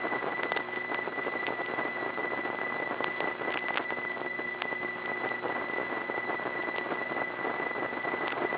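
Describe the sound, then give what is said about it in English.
Pitter-patter of connections being made in a busy Crossbar 5 telephone exchange in Woodland Hills: many quick, irregular clicks scattered over a steady electrical whine and hiss, continuing throughout with no voices. “that other noise you hear, all that sort of pitter-patter noise, is actually the connections being made.”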